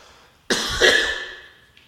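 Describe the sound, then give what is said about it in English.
A single throat clearing from a man preaching a sermon with a frog in his throat: an abrupt, harsh rasp that trails off over about a second, alone without speech. “excuse me. I'll get this frog out of my throat in a minute.”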